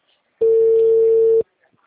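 A single steady ringback tone from an outgoing telephone call holds one even pitch for about a second, starts and stops abruptly, and is followed by near silence with a few faint ticks.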